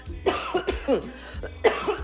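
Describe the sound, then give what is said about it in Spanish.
A person coughing in a quick series of harsh, chesty bursts, a few sharp coughs packed into about two seconds with short gaps between them. “Me ganó la tos, señores.”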